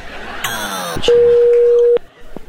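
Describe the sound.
A phone line's busy tone sounds after a call is hung up: a single steady mid-pitched electronic tone holds for just under a second after a brief voice, followed by faint scattered noises.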